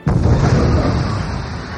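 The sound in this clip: A concussion missile explodes with a sudden loud burst that turns into a sustained, rumbling roar, dense and heavy in the low end, fading only slightly over about two seconds.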